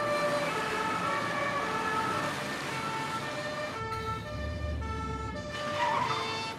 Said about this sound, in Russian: Позади появились синие огни полицейской машины.